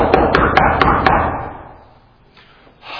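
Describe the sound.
Five quick, sharp knocks on a door, evenly spaced in the first second over a dense steady background. Then quiet follows, with faint rustling near the end.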